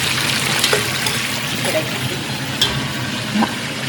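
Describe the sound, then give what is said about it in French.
Bacon, onion and tomato brown in a pan with a loud, continuous sizzle and crackle, a dense frying hiss with small pops scattered throughout. “Je roussis mon lard, mon oignon, mon tomate.”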